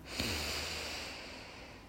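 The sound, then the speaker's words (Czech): A deep breath drawn in: a soft, airy rush that swells quickly, then thins out slowly over nearly two seconds. It is quiet and stands alone with no talk. “Pak se zhluboka nadechni.”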